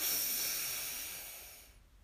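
A deep breath drawn in during a guided breathing exercise makes a loud, airy hiss that starts strongly and fades away over about two seconds, with no talking.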